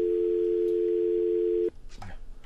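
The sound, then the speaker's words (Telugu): A telephone tone sounds after a call disconnects: one steady, unbroken pitch that cuts off abruptly near the end, followed by a brief faint voice. “Call disconnect అయింది.”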